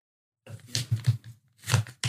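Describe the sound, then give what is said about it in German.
A paper envelope is ripped open after a short silence. Several rough tearing and rustling bursts come in quick succession at a moderate level. “Das Ding der Woche kommt als Foto zu dir und steckt in diesem Umschlag. Und ich würde dich bitten, das einmal aufzumachen. Ich darf öffnen? Du darfst richtig aufreißen.”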